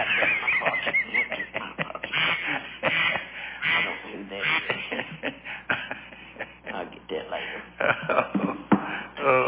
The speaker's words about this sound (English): I didn't turn my phone off. I didn't know you had a duck in your pocket.